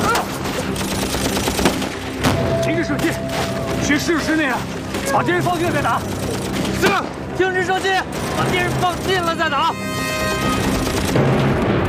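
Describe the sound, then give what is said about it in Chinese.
Battle gunfire crackles in scattered shots and short bursts against a constant rumbling din, with people shouting over it throughout. “停止射击，去试试射击那样，把敌人放近了再打。”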